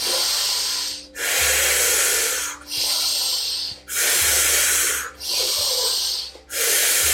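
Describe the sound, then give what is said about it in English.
Forceful, airy breaths in and out during a breathwork session follow in a steady cycle, each loud, hissing breath separated by a brief gap, several strokes in all. “Only about 5 more rounds of this active breath in and out.”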